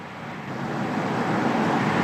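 Steady road and engine noise from a car being driven, a continuous low rumble with broad hiss that grows slightly louder over the short stretch.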